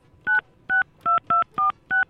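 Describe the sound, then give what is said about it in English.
Six short electronic keypad beeps sound as a telephone number is dialed. Each tone is crisp and even, in an irregular rhythm with brief gaps. “Here, dial the number.”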